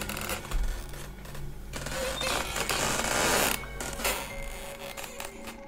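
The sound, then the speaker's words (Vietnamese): An old, unoiled door creaks slowly open with a drawn-out, grinding creak that scrapes on for several seconds. The creak is fairly loud and uneven and has a rough, mechanical texture. “Tiếng cánh cửa vang lên kèn kẹt như lâu lắm rồi không tra mỡ. Cánh cửa từ từ hé ra.”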